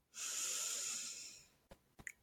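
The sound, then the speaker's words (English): One long inhale through the nose, a soft, steady hissing draw lasting over a second, then a couple of faint, brief breathy sounds. “So breathe in through your nose.”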